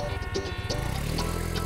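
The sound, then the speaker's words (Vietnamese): A vehicle engine revs as the rider opens the throttle, giving a short buzzy low drone with pulsing harmonics that thickens and steadies partway through. “Hơi ông ơi, lên đường thôi. Ông lên ga đi.”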